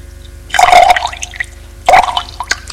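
Liquid poured from a bottle into two glasses on a low table, heard as two splashing, gurgling bursts of pouring separated by a quiet pause, with faint drips in between.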